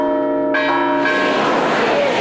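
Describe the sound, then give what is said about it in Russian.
Church bells ring in a bell tower at Easter: loud, overlapping clangs that build from a clear, sustained ringing tone into a dense, shimmering wash of bell tones. “В течение всего дня все желающие могут приложить свою руку к колоколам на нашей колокольне.”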